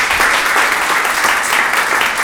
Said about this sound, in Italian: vi chiedo un grande applauso, grazie di essere stati con noi